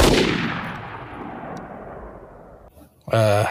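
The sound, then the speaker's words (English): A single loud rifle shot fired at a distant target over a vernier sight bursts out at once and trails into a long rolling decay before a voice briefly speaks. “Well, let me take another shot. Here we go. Okay. I think I hit it.”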